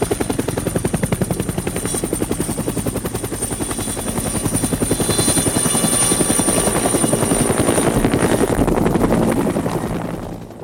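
A rusty helicopter's rotor chops in a fast, steady beat with a buzzing hum, growing louder as it approaches over several seconds, then briefly dropping off at the very end.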